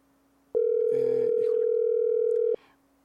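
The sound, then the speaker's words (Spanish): A steady telephone line tone plays while a call is placed, one continuous mid-pitched hum lasting about two seconds that starts and stops abruptly, with faint background sounds beneath it. “Seguimos teniendo algunos pequeñitos problemas con la conexión. Esperamos que Pedro nos tome la llamada en un momento.”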